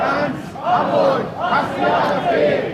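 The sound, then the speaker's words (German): Crowd of about 1,500 protesters at a demonstration against the AfD, loud massed voices shouting in unison and rising and falling in rhythmic, chant-like swells. “Laut Polizei haben hier 1.500 Menschen demonstriert.”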